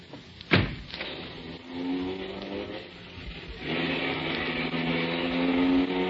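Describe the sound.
A car drives off: a sharp thump near the start, then a steady engine hum that settles, dips briefly and swells louder toward the end.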